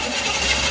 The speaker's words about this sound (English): That sound is every driver's worst fear. How much will the repairs cost? Is it your engine, your transmission, or worse? A car breakdown could cost you thousands to repair,